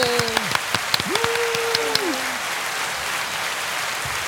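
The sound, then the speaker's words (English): Studio audience applause greeting a guest brought onto a show: dense, steady clapping for about four seconds, with a few whistle-like tones and sharp claps standing out in the first two seconds. “And you got an unusually long applause break there.”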